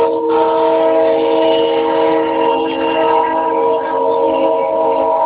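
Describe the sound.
Passing train sounding a sustained horn-like tone of stacked steady pitches over constant rumbling noise, loud and level for the whole stretch with no break.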